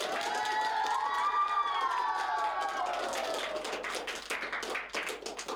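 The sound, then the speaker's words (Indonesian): Applause and cheering from a school event audience after a keyboard performance. Children's high, drawn-out whoops lead at first, then scattered clapping and shouts carry on at a fairly even, moderate level. “Ayo berikan aplaus yang meriah untuk Sesi dan Cheryl.”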